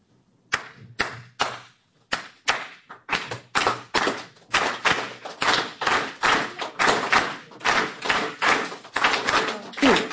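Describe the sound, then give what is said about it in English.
Cuban clave rhythm clapped or tapped as a repeating pattern of sharp hits with uneven short and long gaps. The hits start sparse, then grow denser and steadier, with many strikes and no talk. “It has this beautiful thing called clave. It sounds like this.”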